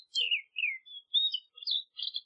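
Blackcap song: a brief run of clear, high warbling notes delivered in six quick bursts, alone against silence.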